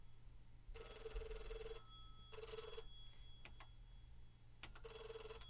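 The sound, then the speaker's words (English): A telephone rings in a few repeated bursts of bright, high, warbling electronic tone, separated by short gaps, over a steady low hum. “Oh, it's ringing.”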